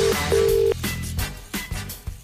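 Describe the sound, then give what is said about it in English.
A telephone call being placed: a steady electronic line tone in two stretches, the second longer, followed by a few soft clicks and thumps as the line connects. “Let me call my Laura O'Mahony guy, see if it's ringing.”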